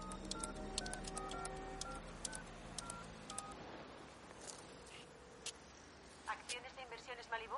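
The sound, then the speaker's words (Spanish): A public payphone being dialled in the 1995 film Heat: a run of short electronic keypad tones with a few clicks, fairly quiet, followed by a quick burst of warbling tones near the end. “Neil llama con un teléfono público.”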